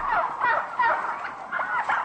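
Farmed turkeys gobble in a shed with fresh air and dry straw, several loud, warbling calls overlapping in quick succession with short dips between bursts.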